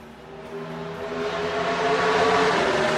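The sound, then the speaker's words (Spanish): A Chevrolet NASCAR race car engine driven by Fernando Alonso gives a continuous throaty drone with strong harmonics, growing steadily louder over its run with no voices. “Es un motor distinto. No es un Fórmula 1. Es un Chevrolet de la NASCAR.”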